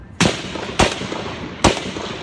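Three loud rifle gunshots ring out during an early-morning baseball practice. Each is a sharp, explosive crack with a short ringing tail, and the shots are irregularly spaced across a couple of seconds.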